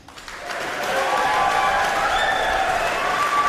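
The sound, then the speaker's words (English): Audience applause for semi-finalists on stage: a dense wash of clapping that swells within the first second, then holds steady and loud to the end. “Please give a warm round of applause for Amanu Fonoti Fui Ma'ono”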